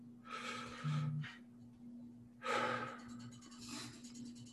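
Two soft, airy breath sounds, a slow deep breath taken during a quiet guided prayer, separated by a short pause, with a steady low hum underneath.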